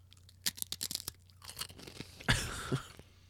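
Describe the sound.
Pringles potato chips being crunched and chewed in an ASMR snack tasting: many quick, crisp crunches in an uneven rhythm, then a louder, denser burst of crunching near the end, with no talk.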